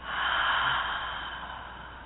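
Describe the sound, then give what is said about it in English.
A deep breath taken during a guided breathing exercise: one long, soft, airy rush of air that swells early and then slowly tapers off, heard alone without talking. “Another deep breath in and out.”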